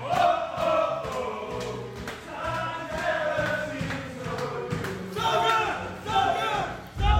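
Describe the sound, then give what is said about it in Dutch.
Loud, sustained cheering and chanting from a group of overlapping voices, a village sports club team celebrating in the changing room after a win, with louder swells of shouting near the end. “Even door naar de kleedkamer, want daar was uiteindelijk weer eens eh, een, een jubelende stemming.”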